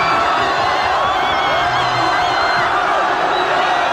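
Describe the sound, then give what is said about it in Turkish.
Spanish football fans roar and cheer wildly at the final whistle of a World Cup win, a dense, continuous crowd noise with whoops and shouts blending into one steady, loud wall of sound. “Bitiş düdüğüyle İspanyol taraftarlar çılgınlar gibi sevindi.”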